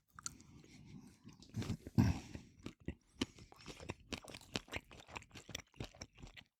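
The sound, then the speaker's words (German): Chewing Berliner Knacker sausage: many crisp, crunchy bites and wet mastication sounds in an uneven rhythm, with one louder crunch partway through and no talk. “Ich probiere jetzt mal auf der Berliner Knacker mal den Rolewski.”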